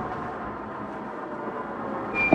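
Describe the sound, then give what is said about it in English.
A motor runs with a steady, low, rumbling drone at moderate loudness, rising to a brief louder bump at the very end. “Turn off the motor.”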